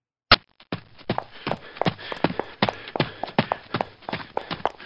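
People walk toward an alley entrance on foot. One sharp, loud step opens a quick, steady run of many footfalls that continues to the end.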